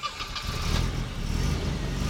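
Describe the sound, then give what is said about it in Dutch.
Steady rumble of a car driving, with continuous low engine and road noise at an even level throughout and no talking. “We rijden naar het Korenburgerveen.”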